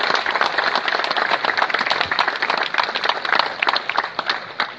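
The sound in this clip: Audience applause at an evening charity event in Herceg Novi: a dense, steady wash of many hands clapping that holds at an even loudness from start to finish, with no single voice standing out.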